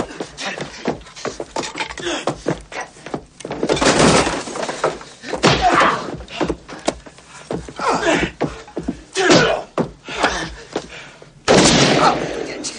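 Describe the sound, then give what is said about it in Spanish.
Gunfire in a 1990 police action film, a pistol shot amid a violent struggle: several sharp, loud bursts and crashes at irregular intervals, separated by quieter stretches. “Una bala ha atravesado el pecho de Loco. Tras él está Sara con una pistola en la mano.”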